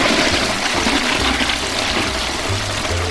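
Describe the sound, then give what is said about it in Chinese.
A toilet flushing: a steady, loud rush of water fills the whole clip with no voices. “就有一点像是平常我们冲马桶的时候，哗啦，”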